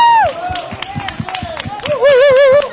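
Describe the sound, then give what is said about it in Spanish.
Children clap in a steady rhythm while an adult voice carries on over them. The claps fall evenly, about three a second, and stay beneath the voice. “Fuerte el aplauso, chicos.”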